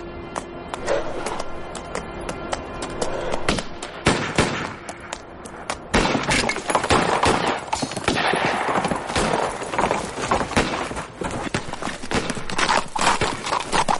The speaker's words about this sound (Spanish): Kid y Butch huyen de un poblado a caballo a toda velocidad.